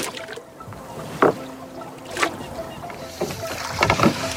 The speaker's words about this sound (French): Un père et son jeune fils en train de pêcher quelque part dans un marais vendéen.